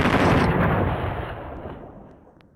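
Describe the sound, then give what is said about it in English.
A gunshot, heard as a loud, booming blast whose deep rumbling tail fades steadily over about two seconds, with no voices. “I suppose I should have been relieved when I heard the gunshot.”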